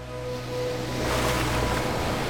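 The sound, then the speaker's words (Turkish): Sea waves washing onto a 600-metre beach on an island, a steady broad rush of surf that swells slightly louder as it goes, with no voices. “Burası 600 metre uzunluğuyla adadaki en uzun plaj.”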